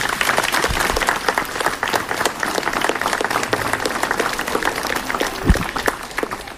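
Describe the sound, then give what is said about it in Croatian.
Applause for first-graders at a school ceremony: dense, steady clapping from many hands that holds at an even, loud level throughout, with no voices standing out. “Molim veliki pljesak za naše prvašice.”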